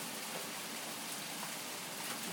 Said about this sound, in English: Raining so hard that it's actually blowing and hitting the front of the gas meter cupboard.